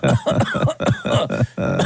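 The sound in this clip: A voice imitates a child's fake cough with a rapid run of several harsh, voiced coughing bursts. They follow one another closely and stay loud throughout.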